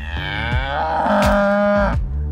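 A cow lets out one long, loud moo whose tone climbs early and then holds steady before it cuts off, with no voices.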